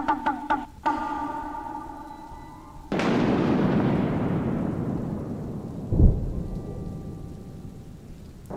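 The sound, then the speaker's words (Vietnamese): Thunder during a thunderstorm: a sudden loud crack swells into a long, slowly fading rumble, and a second deep thud breaks through partway along, with no voices. “Trời không ngừng sấm chớp liên hồi, từng chập ánh sáng màu xanh cứ không ngừng nhấp nhoáng, làm sáng cả một vùng trời, sau đó rồi biến mất.”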